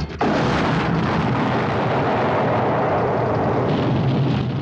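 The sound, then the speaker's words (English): A shell hits a German fuel truck and it explodes: a sharp blast at the start swells into a dense, sustained roar that rumbles on for several seconds. “He fires another, blowing up a fuel truck. Then a couple more shells, destroying more German vehicles.”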